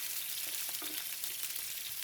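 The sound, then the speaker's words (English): Onions, garlic and thinly sliced potatoes fry in a pan with turmeric and fresh chilies, giving a steady, soft, hissing sizzle with no voices. “Fry your onions, your garlic, and then your potatoes. They're really thinly sliced. Okay. And you just saute that with some turmeric and some fresh chilies”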